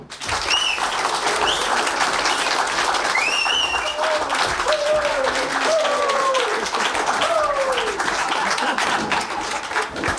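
An audience applauds to welcome a legend of Czech popular music at a nostalgic entertainment museum. The clapping is thick and continuous, holding at a steady level for the full ten seconds.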